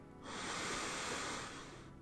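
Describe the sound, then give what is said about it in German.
A slow, deep inhalation during a guided breathing and body-awareness exercise: a soft, airy hiss that swells in, holds steady for well over a second, then fades, with no talking over it. “Atme einmal tief, tief, tief hinein”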